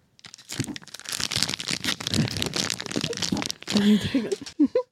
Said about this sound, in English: I wish I had something to crinkle. Oh, wait.